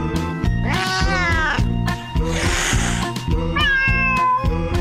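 Cats meowing set into a comic song about house cats: a few long, drawn-out meows with wavering, sliding pitch rise over steady, rhythmic backing music. The loud meows repeat in phrases that follow the beat.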